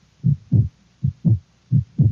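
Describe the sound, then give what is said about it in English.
A frightened heart beating, heard as three pairs of deep, muffled thumps, each pair a heavier thud followed closely by a second, repeating at an even, steady rhythm with silence between. “You hear that sound? It's the sound of a heartbeat. A frightened, terrified heart.”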